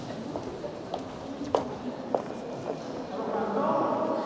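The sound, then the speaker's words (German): Footsteps walk through the busy EU Council building: a few soft, irregular heel clicks over a constant murmur of indistinct voices that swells toward the end. “Wir laufen jetzt also gerade an ein paar Lift vorbei, Richtung der zweiten grossen Halle in diesem EU-Rat, wo doch einiges los ist.”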